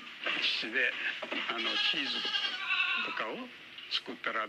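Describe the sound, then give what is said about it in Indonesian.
Goats bleat on a farm with sixty animals, a steady stream of wavering, quavering calls that overlap and repeat without pause. “Yamaguchi Eishu, yang memiliki 60 kambing.”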